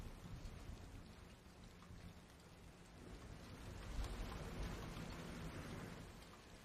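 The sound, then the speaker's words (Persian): A thunderstorm with rain gives a steady hiss of heavy rainfall, with a low thunder rumble swelling midway and then easing back. The whole is fairly faint and has no voices. “توفن تموم شد؟ ما توی دل توفانیم.”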